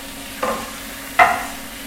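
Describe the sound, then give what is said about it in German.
Liver fries in a pan, cooked to medium for pâté, with a steady low sizzle throughout. Two short, louder bursts of sound rise above it. No one speaks. “Die Leber muss nicht durch sein. Okay. Ja, das heißt, wir können sie medium braten und dann daraus trotzdem wunderbar die Paté machen.”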